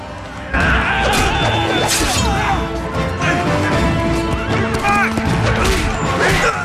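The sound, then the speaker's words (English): Horses galloping off after a fight with soldiers: a loud, dense mix of drumming hoofbeats, sharp whinnies and crashing impacts, with shouting voices mixed in throughout. “The sheriff and Gisborne gallop off.”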